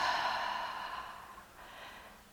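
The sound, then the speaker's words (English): A deliberate deep breath, slow and breathy, with a soft airy rush that gradually fades and a gentler second swell near the end, heard alone without talk. “And one more deliberate breath up from the ground, through your backside, and drop back down.”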